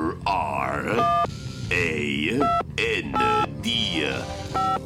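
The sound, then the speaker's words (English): Someone turns the dial on a portal device, producing several short bursts of electronic beeping tones. Warbling, groaning vocal sounds come between the bursts. “Quickly, into the portal. Set it at random. All right, let me manipulate the dial here.”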